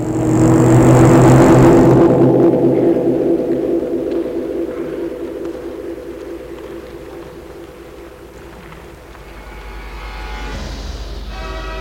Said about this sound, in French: Et la voiture s'enfonce dans la nuit.